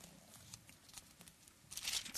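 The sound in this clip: Pages of a Bible being flipped, heard as soft, faint papery rustles that grow louder and denser toward the end.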